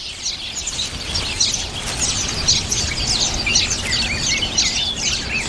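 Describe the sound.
Black-faced finches chirping at their nest, with many high, quick tweets overlapping in a dense, steady chatter that runs without pause throughout.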